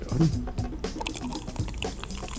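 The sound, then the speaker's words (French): A drink being poured straight into a glass, a trickling, splashing liquid sound running throughout under people talking. “On verse. Oh! J'adore le bruit.”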